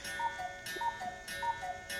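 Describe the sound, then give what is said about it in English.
Cuckoo clock ticking with a steady, even tick-tock, soft and faint on its own, each tick a light clicking pulse repeating a few times with no voices. “sorry, that's my cuckoo clock.”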